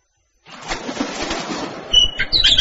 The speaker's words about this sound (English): Hello, bird. What's your name? Hi, Tweet Tweet.